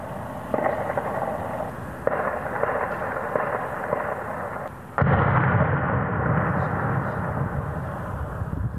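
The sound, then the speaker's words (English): Explosions from a suspected hand grenade attack in northern Stockholm: a few sharp, heavy blasts, each leaving a dense, noisy rumble behind it, with the loudest burst near the end. “That was the sound of explosions in northern Stockholm last year, where two people were injured in what is believed to have been a hand grenade attack.”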